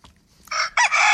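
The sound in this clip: A rooster crow sound effect, a loud, bright, brassy call that starts abruptly with a short opening note and then breaks into a sustained, strained crow held to the end.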